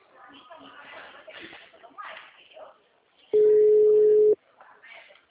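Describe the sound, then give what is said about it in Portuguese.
A WhatsApp voice call's ringing tone sounds once as a single loud, steady, low-pitched tone lasting about a second, with people talking before and after it. “Então liga pra ele, que é urgente, vai. Dá um toquezinho no WhatsApp.”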